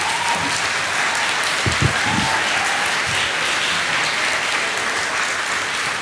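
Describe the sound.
A church audience applauds to welcome a speaker: dense, steady clapping holds loud and continuous from start to finish.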